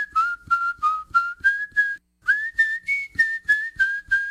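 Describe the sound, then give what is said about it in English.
A person whistles many short, clear, high notes in two quick runs separated by a brief pause. The pitch stays fairly steady, stepping slightly higher in the second run. “Y'all come say hello to the whistler”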